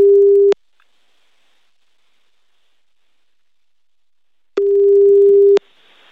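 Telephone ringing tone heard while calling someone: a steady, mid-pitched electronic tone sounds twice, first briefly at the start, then a longer burst after a long silence, with no voices.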